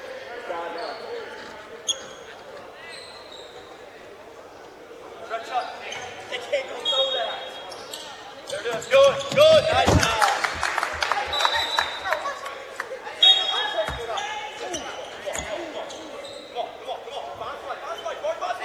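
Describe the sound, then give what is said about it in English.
Basketball bouncing on the court during a live college game involving the Aggies, with many quick thumps under steady commentary and light crowd noise. “Basketball came over towards our broadcast table at the Sleeping Giant Heating and Cooling scoring table.”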